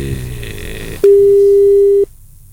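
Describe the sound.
A telephone tone after a call is cut off: one steady, mid-pitched beep lasting about a second, rising out of low background noise and stopping abruptly into near quiet.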